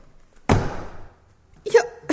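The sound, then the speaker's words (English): One sharp thud of a blow to a man's head, the knockout hit, decays quickly into quiet, followed by a brief vocal exclamation. “You knocked him out.”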